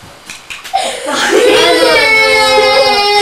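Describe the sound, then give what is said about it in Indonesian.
A small child cries, a loud sustained wail that starts after a few brief taps and keeps going at a fairly steady pitch to the end. “Aduh, sedih banget sih yang nangis.”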